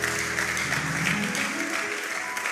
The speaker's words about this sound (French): Est-ce qu'on peut acclamer pour nous-mêmes d'abord?